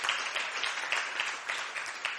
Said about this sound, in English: we give him a big hand clap for that.